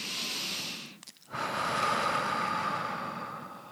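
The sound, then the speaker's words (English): Deep, slow breathing, drawn in through the nose and let out through the mouth, heard as a long airy rush, a brief near-silent gap, then another sustained breath, soft and steady with no voice. “begin to take a few deep breaths deep into your belly, in through your nose, and slowly exhaling through your mouth”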